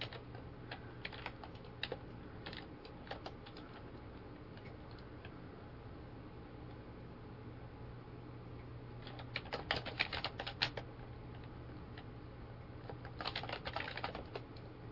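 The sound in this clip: Someone types on a computer keyboard to look something up, producing soft, irregular bursts of keystroke clicks over a steady low hum, with denser flurries near the end.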